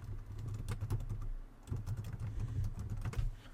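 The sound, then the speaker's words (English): Typing on a computer keyboard: a rapid, irregular stream of many key clicks with a short pause midway, over a low steady hum. “I'm going to type in that information”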